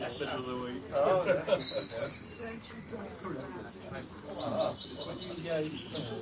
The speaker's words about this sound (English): I'm not talking about the birds chirping. I'm talking about everybody speaking English and feeling comfortable. Listen.